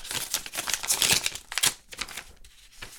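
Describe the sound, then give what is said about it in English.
A paper letter envelope is torn and opened with crisp crinkling and ripping, a flurry of dry rustles and short tears rising and falling in loudness. “I don't get a lot of letters from the inside. And so I'm gonna go ahead and open this up.”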